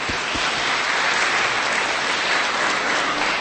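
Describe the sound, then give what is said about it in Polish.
An audience applauds the singers at a concert with loud, dense, continuous clapping from many hands. The sound holds an even level throughout with no voices over it. “Pragnę jeszcze dodać, że dzisiaj wystąpią śpiewacy, artyści, jak mawiamy w Polsce, z górnej półki. Brawo dla nich.”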